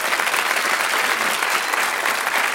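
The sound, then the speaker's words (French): Audience applause at a cabaret show: thick, continuous clapping from many hands, loud and steady throughout with no voices or breaks. “Oui, on peut l'applaudir, bien sûr.”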